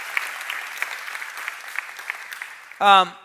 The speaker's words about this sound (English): Can you guys give them a big hand, would you?